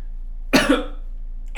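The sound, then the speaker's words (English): A person coughs and chokes in one harsh, raspy burst of two quick pulses, followed by a short silence and the start of another cough at the end. “excuse me, I'm choking.”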